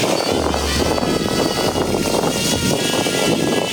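Racing drones buzz at a drone competition, a dense, steady propeller whir with a low hum underneath that holds at the same loudness throughout, with no voices.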